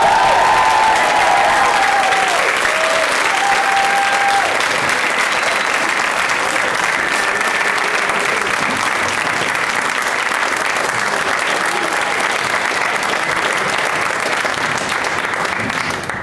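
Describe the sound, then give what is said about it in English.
A studio audience applauds to welcome three guests onto a talk show. The clapping is loud, dense and continuous, holding steady throughout before easing slightly at the very end. “Please give a big warm welcome to Adam Nee, Paul F. Tompkins, and Thomas Middleditch.”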